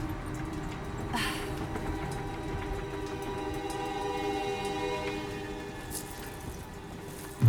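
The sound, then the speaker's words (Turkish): A metro train makes a steady rumbling hum with a faint tonal whine running through it. A sharp thump comes right at the end. “birazdan metroya bineceğim. Telefon kesilebilir, tamam mı?”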